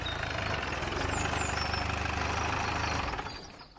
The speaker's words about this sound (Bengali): জিপটা আমাদের একেবারে সামনে এসে ব্রেক কষল।